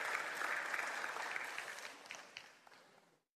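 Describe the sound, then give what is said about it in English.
Applause from an audience cheering a person on: many hands clap densely at first, then the clapping thins and fades until it stops abruptly near the end. “Hey, everybody give Buck a hand. You did a good job.”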